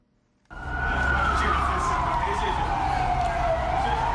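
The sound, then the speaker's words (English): Siren of a police water cannon vehicle at a street protest in Harare, Zimbabwe, a loud continuous wail that starts abruptly and slowly falls in pitch over a deep rumbling engine. “That is the siren of a water cannon vehicle wailing as Zimbabwean police tried to break up a protest calling for the resignation of President Robert Mugabe.”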